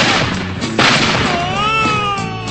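A gunshot sound effect in a radio comedy skit gives one sharp, loud bang, followed by a sustained, wavering whistle-like tone that bends upward and lingers to the end.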